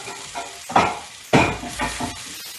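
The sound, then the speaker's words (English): Salt is stirred into a sizzling spiced savory dish in a pan. A steady crackling sizzle is heard, with two louder scraping strokes of the stirring and no voices. “So here I take the salt and I am going to mix it up.”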